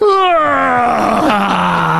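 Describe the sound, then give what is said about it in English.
A voice imitates the loudest yawn of a young boy, about four to six years old, during a wedding ceremony: one long, loud, drawn-out vocal groan that slides steadily downward in pitch. “my son let out the loudest yawn”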